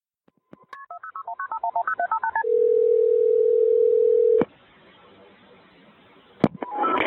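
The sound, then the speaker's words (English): Emergency number dialed on a telephone keypad: a quick run of many short, evenly spaced touch-tone beeps at shifting pitches, followed by a long steady tone that cuts off abruptly, with a brief burst of sound near the end. “frantically dialed 911”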